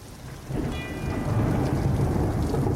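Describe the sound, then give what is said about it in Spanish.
A thunderstorm with steady rain: a broad hiss of falling rain swells after half a second and stays loud, carrying a deep low rumble of thunder underneath. “me parece que escucho como algo, ¿no? Como, no sé, como empezó a llover antes. ¿Qué es eso? Escucha bien.”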